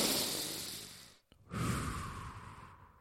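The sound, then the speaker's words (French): A deep breath is drawn in as a long, soft, airy rush. A short pause follows, then another long breathy sound. “on est prêt pour prendre cette grande bouffée d'air qui fait.”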